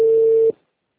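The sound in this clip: A telephone call goes unanswered, and the ringback tone sounds as a single steady, mid-pitched beep of about half a second. It cuts off abruptly into silence.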